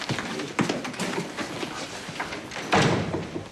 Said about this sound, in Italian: Vieni nel mio ufficio e chiudi la porta.